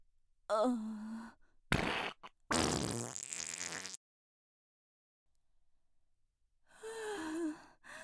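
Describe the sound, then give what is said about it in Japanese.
A woman's fart: a short burst, then a drawn-out, sputtering blast lasting over a second. Soft voiced sounds come before it, and a quiet gap follows. “ケツ穴開いたせいでおなら出ちゃう。出る出る。”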